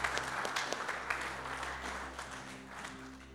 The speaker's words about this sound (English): So I'd love you to put your hands together as we welcome Andrew and Penny on board.